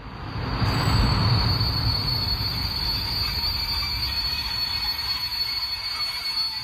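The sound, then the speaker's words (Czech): A train arrives at a terminus main station. A loud rolling rumble swells early, then settles into a steady roll with high, thin wheel squeal running throughout. “Stanice Království na konci duhy, hlavní nádraží. Konečná stanice. Prosíme, vystupte si.”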